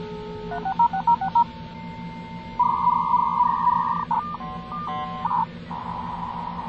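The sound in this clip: Touch-tone telephone dialing of a dial-up internet access number: a quick run of short beeps, then longer held tones and a few more beeps over a steady low hum, with no voices.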